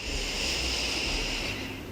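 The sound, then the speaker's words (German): A slow, deep breath taken during a guided relaxation exercise, a steady airy rush of moderate loudness that softens slightly toward the end. “Dazu atmen wir wieder tief ein und aus”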